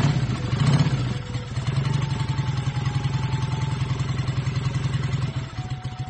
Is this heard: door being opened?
no